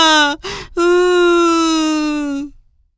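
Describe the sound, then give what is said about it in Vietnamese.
A lamb crying bitterly after slumping to the ground lost: a short loud wail, a breathy sob, then one long sustained wavering cry that trails off, alone with no talk. “bé cừu ngồi phịch xuống đất khóc thảm thiết”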